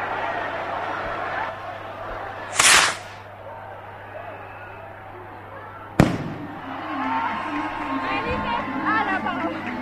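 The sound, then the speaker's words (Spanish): The chupinazo rocket that opens the Barbastro festival, delayed when its fuse would not light, gives a brief hissing whoosh and then, a few seconds later, a sharp loud bang, followed by lively crowd voices. “Han comenzado las fiestas de Barbastro con ese cohete que se retrasó porque no prendía la mecha, y estalla la fiesta en Barbastro.”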